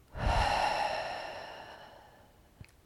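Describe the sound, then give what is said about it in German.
A single deep belly breath, one long, breathy exhale that swells quickly and then thins out slowly over about two seconds, ending with a faint click. “Beginne dann deinen Atem zu vertiefen. Atme in den Bauch ein und aus.”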